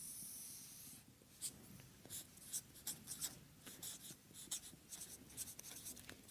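Faint handwriting sounds: many short, scratchy pen or chalk strokes tap and scrape in an irregular rhythm over quiet background hiss, with no voices.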